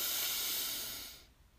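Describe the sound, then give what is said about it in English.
A deep breath in during a guided breathing exercise, a loud airy hiss that holds for about a second and then fades away. “Let's take a deep breath in together. Breathe in.”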